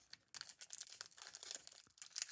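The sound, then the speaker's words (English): Crinkling and tearing of a 100 Grand candy bar wrapper, a quiet burst of many sharp, papery crackles that rustle on without pause, with no voices over it. “It's 100 grand. It's rich caramel, milk chocolate, crispy crunchies. So it sounds good. All right, tear her open.”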